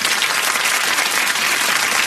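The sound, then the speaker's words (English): A crowd applauds in a short, dense burst of clapping that stays uniform and fairly loud for about two seconds, with no voices standing out. “Just clap for Tanner.”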